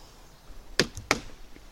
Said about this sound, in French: Donc avant de cuisiner, il y a toujours une petite séance de fendage de bois. Donc voilà, on tape, on cogne.